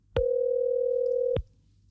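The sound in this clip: A telephone signals an incoming call with a single steady electronic tone. It is mid-pitched and even, sounds alone for just over a second, then cuts off cleanly.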